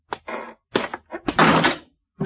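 A door with a broken latch knocks shut in a few short thumps, then a longer rattling clatter, followed by one more brief knock.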